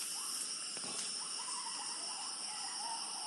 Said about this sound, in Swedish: Ja, så där lät det alltså i djungeln på malaysiska Borneo.